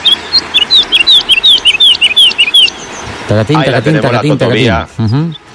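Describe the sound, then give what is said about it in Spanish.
Woodlark song: a rapid series of short, high, descending whistled notes repeated phrase after phrase, clear and fairly loud, before a voice starts talking over the last of it. “vamos con nuestra ave del día, que es la alondra totobía.”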